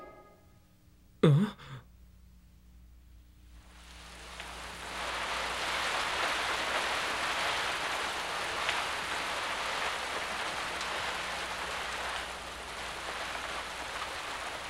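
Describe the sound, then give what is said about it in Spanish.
Rain falling, a soft steady hiss that swells after a few seconds and holds at an even level, preceded by one brief breathy sound. “No deja de llover.”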